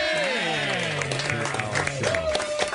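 Studio audience applause and crowd noise welcoming guest Charlie Day, a steady dense wash that runs the whole time, mixed with louder tonal sounds.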